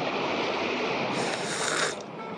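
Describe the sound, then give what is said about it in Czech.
Sea waves with wind and rain produce a steady rushing roar, and a brighter hissing layer swells through the middle before fading away. “Vlny, kroupy, dešť a zima. Mokro a zase mokro.”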